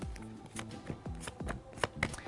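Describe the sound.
Tarot cards shuffled by hand: a soft, rapid riffling made of short papery flutters and a few sharper snaps, quiet and heard alone.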